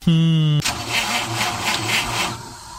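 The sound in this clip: A car engine starts: a loud, steady starter whine cranks for about half a second, then the engine catches into a rough, pulsing idle.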